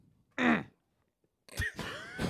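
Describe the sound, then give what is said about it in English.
Throat clearing: a short, harsh burst, a silent pause, then a longer, noisier rasping rumble that ends in a rough drawn-out grunt. “Just clearing my throat.”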